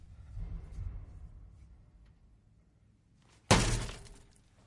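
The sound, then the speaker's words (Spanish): An angry man strikes a window's glass pane: a single loud, bright impact that rings and fades after a quiet, low rumbling lead-in. “Tira el móvil sobre la mesa y, enfadado, golpea el cristal de la ventana.”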